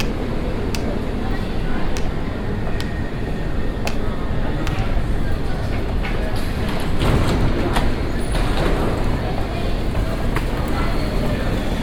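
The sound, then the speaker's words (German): A U2 subway train in Munich, bound for Messestadt, pulls into platform 2 with a loud, continuous roar and rattle, broken by scattered sharp clicks of wheels and track. “Am Bahnsteig 2 fährt gerade die U2 Richtung Messestadt München ein. Bitte Vorsicht an der Bahnsteigkante.”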